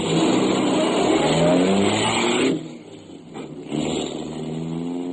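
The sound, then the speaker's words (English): A car drives off, its engine roaring loudly and steadily, then dropping away abruptly to a much quieter rumble that briefly swells again before fading low. “I drove off”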